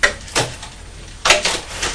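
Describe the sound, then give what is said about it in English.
Cupboard doors being shut, producing a few sharp clattering knocks separated by short pauses, with no talk over them. “All done, the old door. You shut the doors on the cupboard.”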